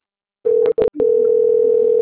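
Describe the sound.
Telephone dial tone heard while calling a number: a steady, mid-pitched continuous tone begins after a short silence, is broken by two brief clicks, then resumes and holds evenly to the end.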